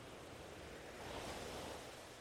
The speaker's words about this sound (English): listening to the sounds of the water, the waves washing gently onto the shore